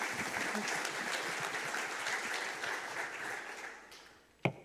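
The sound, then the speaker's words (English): Applause as an elder is welcomed to the stage, a sustained wash of clapping that gradually fades and ends with one sharp knock. “And if you could put your hands together and welcome Diane to the stage.”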